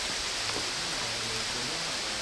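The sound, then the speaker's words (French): Outdoor rainfall pouring over people who are washing themselves in it, a dense, even hiss that holds steady and loud from start to finish without pauses. “Là on est sous la pluie, c'est génial. On est tous en train de se laver par la flotte.”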